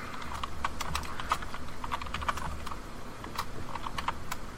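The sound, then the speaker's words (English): Rapid typing on a computer keyboard, a dense, continuous stream of light clicks with a few louder keystrokes standing out over a low background hum. “God, you type so much faster than me.”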